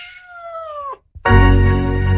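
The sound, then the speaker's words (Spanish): A cat meows once in a clear tone that slides downward. After a brief silence it gives a louder, lower, rougher yowl that holds steady to the end. “puedes llevar a casa a un mejor amigo adoptando a uno de nuestros gatitos. Cat Café Bilbao, donde el amor por los gatos se mezcla con el mejor café.”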